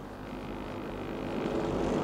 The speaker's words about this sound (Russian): Самолет на старт! Есть самолет на старт!